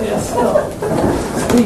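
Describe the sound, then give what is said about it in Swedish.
A hatch on an old rail car is opened, giving a brief sliding scrape that sits under the surrounding talk. “Jag kan öppna luckan.”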